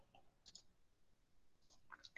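Faint keyboard clicks as a search query is typed into Google, a few sparse, sharp taps scattered unevenly with a slightly louder one at the end.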